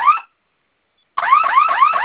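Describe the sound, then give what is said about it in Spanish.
A security alarm panel sounds after both fire buttons on its keypad are pressed at once: a loud electronic warbling tone in a short burst, a pause, then a continuous run of rapid repeating rising sweeps. “Va a sonar su alarma y vamos a ingresar su clave.”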